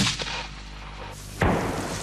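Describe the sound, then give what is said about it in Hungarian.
A heavy gunshot booms during a live-fire military exercise. A low steady rumble comes first, then one sharp, loud blast whose broad roar sustains to the end. “Ezzel a tűzzel tulajdonképpen támogatják a századnak a harcát. Élő erőre, tűzeszközökre, fedezékben elhelyezett célokra. Tűz!”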